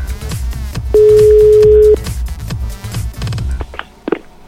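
A telephone busy tone after the other side hangs up on a phone call: one steady, mid-pitched beep lasting about a second, set against busier background sound.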